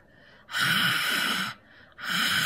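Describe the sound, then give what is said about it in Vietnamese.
A voice imitating strange, raspy, heavy breathing, like that of an eerie late-night caller, in two long, hoarse, hissing breath bursts split by a short pause, loud and alone. “mà bây giờ không nghiến răng nữa mà bắt đầu thở, mà thở cái kiểu rất là kỳ, thở cái kiểu hà hơi á các bạn, dạng vậy nè”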